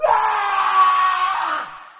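A man screams loudly in terror: one long, sustained, strained cry that holds steady for nearly two seconds, then tapers off and fades at the end.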